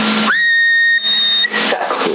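A person whistling into a CB radio microphone, heard as a steady, high sustained note through narrow, hissy radio audio, holding for about a second and a half before breaking up into noise.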